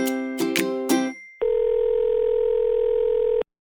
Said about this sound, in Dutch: Dus we gaan even Nico bellen.